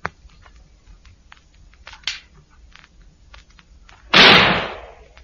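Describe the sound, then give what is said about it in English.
A single loud gunshot, fired from a gun out of a window into the air, cracks sharply out of near-quiet and rings down over about a second. “Fire your gun out of the window. Just fire it in the air.”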